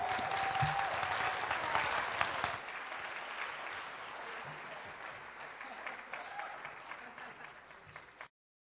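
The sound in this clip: A church audience applauds to welcome a woman who is about to be baptized. The clapping is dense and steady for about eight seconds, easing slightly toward the end before it stops abruptly.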